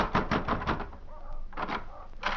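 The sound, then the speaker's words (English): Hard knocking on a hotel room door: a quick run of heavy, dull thuds, then a few more blows after a short pause. “I took the steps up 2 flights and slammed at McQuill's door.”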